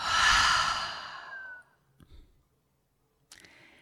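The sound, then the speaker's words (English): A long, soft exhale during a guided breathing exercise, a single breath let out that fades away after about a second and a half. A couple of faint, brief sounds follow in near silence. “Let's take another long breath in. And let it go.”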